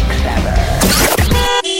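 A car horn sound effect opens a traffic report. A dense burst of mixed noise gives way to a steady, buzzy horn tone at the end.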